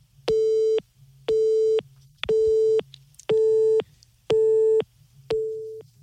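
Telephone busy signal on an unanswered call: six evenly spaced, steady tone bursts of equal pitch, each about half a second long and separated by short gaps. The sound is loud and clear, with no voices.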